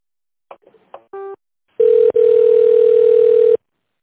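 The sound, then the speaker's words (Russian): Telephone tones as an office call is transferred: a few brief dialing beeps, then a long, steady, mid-pitched ringing tone with one tiny break, ending abruptly. “Давайте я вас с Олегом Риксовичем соединю.”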